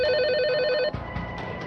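Telephones ring with a bright electronic warbling tone rich in overtones, repeating steadily before cutting off abruptly, after which fainter tones and light clicks linger.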